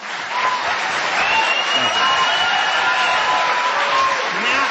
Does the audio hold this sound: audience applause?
yes